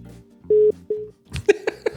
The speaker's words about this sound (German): Ruft der wirklich zweimal an? Das ist ja auch krass. Hier gab es noch nie einen Anruf.